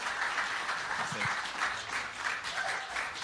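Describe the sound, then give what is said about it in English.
A church audience applauds to welcome a guest preacher to the morning service, with dense, steady clapping that lasts the whole clip. “But can you give a huge hand and welcome to Dustin Barthlow as he shares God's word with us this morning.”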